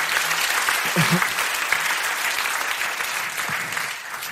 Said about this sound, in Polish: Kuba Kinsner, więc może poproszę o klaski.